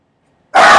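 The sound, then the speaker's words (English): A pet dog lets out one loud, abrupt bark-like burst after near silence, harsh and sustained briefly to the end. “Making an appearance on the podcast. Oh, Leonard, knock it off. This is my dog.”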